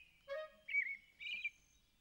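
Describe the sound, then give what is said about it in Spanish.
An adult thrush sings three short, clear whistled phrases with warbling, tonal inflections. The phrases are fairly loud against a quiet background, with no voices. “No lo sé. Nunca he escuchado esa canción. ¡Oh! ¡Es un tordo! ¡Oh! ¡Un tordo adulto!”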